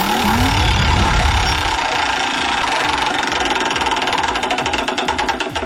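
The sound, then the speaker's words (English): Rapid ratcheting clicks from a spinning prize wheel run loud and dense, many clicks in a steady stream over a broad rattling wash that continues to the end. “we're going to spin the Wheel of Fun, and maybe magic will happen. Awesome. That would be great. Here we go.”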